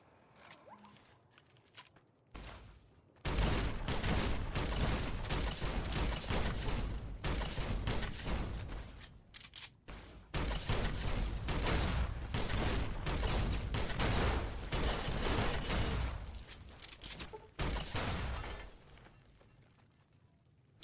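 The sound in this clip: Gunfire and grenade explosions in a shooting video game: a dense, loud barrage of shots and blasts runs almost continuously after a quiet opening, with brief lulls before it fades near the end.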